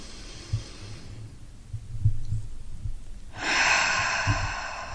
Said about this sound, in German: nimm jetzt mal einen dankbaren, tiefen, liebevollen Atemzug.